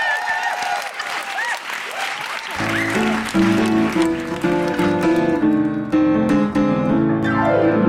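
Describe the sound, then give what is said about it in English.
Audience applause for a singer after her song, dense steady clapping throughout; sustained musical tones enter partway through and continue underneath the clapping to the end. “please put your hands together for Steph Masucci”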